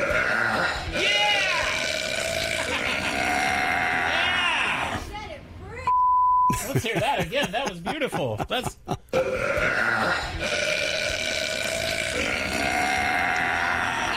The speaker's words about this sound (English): I just broke the world record for women's loudest burp.